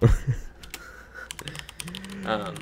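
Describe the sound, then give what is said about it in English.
Keys clatter on a computer keyboard in a quick, irregular run of sharp clicks, with a brief voice at the start and near the end. “Everybody can hear me type.”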